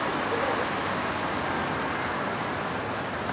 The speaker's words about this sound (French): Boulevard Saint-Michel, boulevard Saint-Germain à Paris. Les policiers font la circulation.